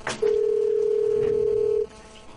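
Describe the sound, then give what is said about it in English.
Ringing tone as a phone call is placed: one long, steady, mid-pitched beep lasting over a second and a half, loud and alone, then cut off abruptly. “Call phones. Here we go. Right, call it.”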